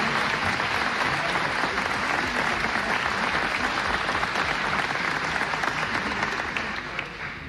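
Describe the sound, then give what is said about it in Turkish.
Audience applause for a davul drummer and a zurna player after a lively Turkish folk song: dense, even clapping that holds steady for several seconds and eases off slightly at the very end, with no speech. “Onları da alkışlamanızı istiyorum.”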